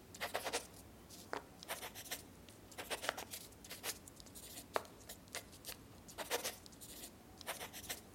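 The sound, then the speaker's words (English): Faint scratching of a pen writing on paper in an office, many short irregular strokes in quick bursts with quiet gaps between them. “No more words. I'll put it in writing.”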